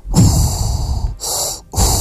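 Mechanical respirator breathing effect, loud and hissing, with a long first breath followed by two shorter ones in a steady rhythm.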